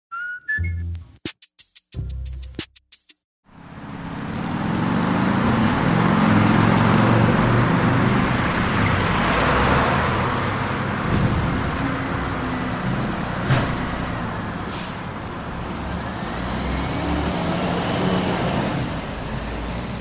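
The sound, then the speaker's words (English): Heavy traffic on a major street in Montreal. A few seconds of choppy, broken bursts give way to a continuous loud roar of trucks, buses and cars, with passing vehicles swelling and fading. “I live in Montreal, on a major street. It's loud, like really loud, for almost 18 hours a day.”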